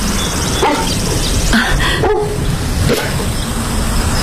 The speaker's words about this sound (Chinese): 我来送你的狗。